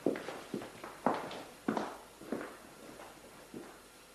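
People walk off with footsteps: a steady series of about seven firm, evenly spaced steps, each a short thud, alone with no talk.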